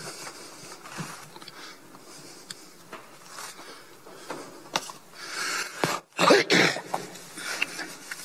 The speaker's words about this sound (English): I'm sorry. I'm just going to get my throat clear.